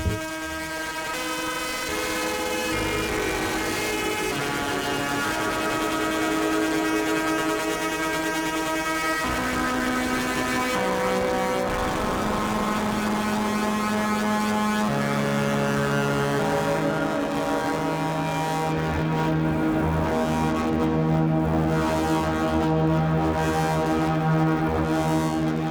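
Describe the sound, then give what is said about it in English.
An ARP 2600 synthesizer fed through a Speebtone Jerk-U-Later fuzz pedal, its filter being adjusted: a continuous, loud, buzzing and harmonically rich drone whose pitch shifts in steps, with no talking. “Now I'm just playing with the filter on the ARP 2600, which is feeding the jerculator. Any of the changes I'm making on the ARP are going to the fuzz and having a reaction.”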